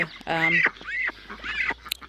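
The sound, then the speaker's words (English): Ducks give a few harsh, nasal quacking calls in quick succession, each rising and falling in pitch, moderately loud over a quiet background. “I'm just attached to them, and I love my ducks and Mel's.”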